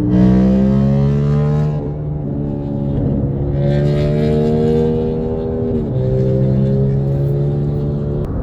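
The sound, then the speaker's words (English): A motorcycle passes with a loud, continuous engine drone whose pitch climbs, drops back, and climbs again, as if shifting gears. No voices are heard. “guy on a motorcycle interrupted my message.”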